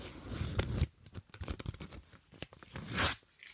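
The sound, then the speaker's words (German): A sealed paper envelope is torn open with a few crackling, rasping tearing bursts of uneven strength, the loudest near the end, with no voices. “So, ich öffne den Umschlag.”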